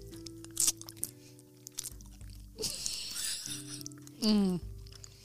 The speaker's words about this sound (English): Here, I'll join you. Here's the sound of us eating cheese.